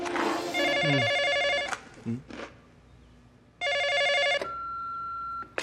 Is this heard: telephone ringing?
yes